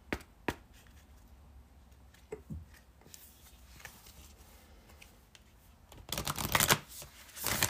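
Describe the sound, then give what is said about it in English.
Cards from a cannabis-themed deck being shuffled and drawn: scattered soft taps and flicks, then a louder, dense riffling burst near the end, with no talk. “Two more cards from the cannabis deck.”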